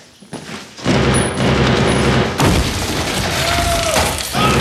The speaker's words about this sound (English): they throw a grenade into an adjacent room.